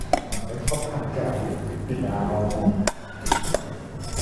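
A spoon scrapes leftover food off plates and bowls. Several sharp metallic clinks of cutlery on dishes come at irregular moments, with softer scraping and shuffling between them.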